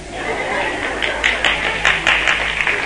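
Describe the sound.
An audience at a motivational seminar claps in steady, dense applause of moderate loudness, with scattered louder individual claps standing out.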